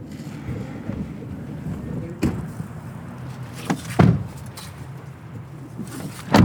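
A car pulls in and parks: a low rumbling drone with wind noise, broken by a few sharp thuds as it comes to rest and is locked.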